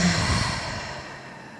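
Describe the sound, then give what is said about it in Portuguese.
A deep breath is let out slowly through the mouth in one soft, airy exhale that gradually fades away, heard alone. “Um respiro profundo para a gente sintonizar. Inspira pelo nariz. Solta o ar pela boca.”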